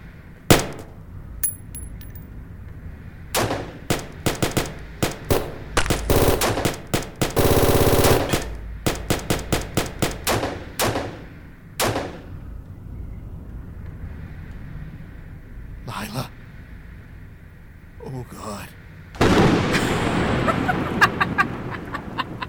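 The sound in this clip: Gunfire in a fight: many sharp shots and rapid bursts, with a long, loud sustained volley near the middle, scattered single cracks afterward and a harsh, noisy stretch of fire at the end.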